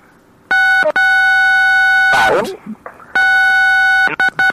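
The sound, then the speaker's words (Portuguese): Telephone keypad buttons pressed during a phone call, producing DTMF tones: two long, steady two-pitch tones separated by a brief burst of voice, then a few short beeps at the end. “Acho que você tá pressionando algum botão do telefone.”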